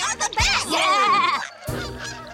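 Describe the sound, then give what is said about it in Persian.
Geese honking in a farming video game: several loud, nasal honks with bending pitch come in quick succession, then more honks follow after a brief gap. “ای وای، اونجا رو ببینین، قازا دارن عقبکی پرواز میکنن.”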